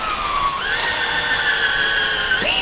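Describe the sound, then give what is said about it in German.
Loud, continuous motor whine of a cordless drill-driver at a carpentry workbench. The steady high tone steps up in pitch early on and again near the end. “Gerade jetzt setzt sie den Akkuschrauber an.”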